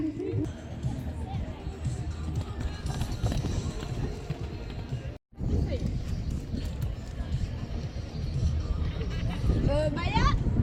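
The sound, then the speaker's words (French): Horse galloping during a riding session, heard as a continuous rapid drumming of hooves in dense, noisy ambience, briefly cut off near the middle before resuming. “Regardez-moi cette petite bombe comme ça galope là, franchement.”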